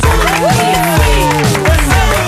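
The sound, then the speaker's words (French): Radio studio applause and cheering for a game show contestant, with clapping under loud whoops and cheering voices from the small crowd throughout. “Applaudissements pour Tom.”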